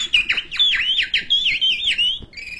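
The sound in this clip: A man imitates a caged bird's call with his voice, producing bright, rapid warbling whistles. The notes swoop up and down in quick, continuous trills for about two seconds, clear and fairly loud.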